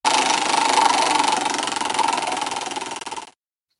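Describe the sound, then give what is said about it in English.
Prize wheel spinning, a rapid, loud ratcheting tick that runs steadily, seems to loosen slightly toward the end, then stops abruptly after a little over three seconds, leaving silence. “So are you ready? I'm ready. All right. Let's spin the wheel.”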